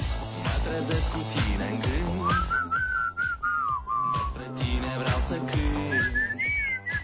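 Whistling of a wavering, clear melody in short phrases, carried over rhythmic backing music with a steady beat.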